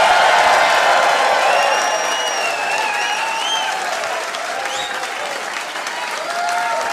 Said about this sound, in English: Ladies and gentlemen, would you please put your hands together and welcome to the stage, Luke Hegging!